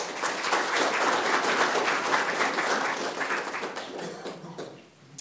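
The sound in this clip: Audience applause welcomes a speaker to a talk on how the Australian public saw the National Service Scheme in 1968. Dense, steady clapping holds for about four seconds, then thins and tapers away at the end.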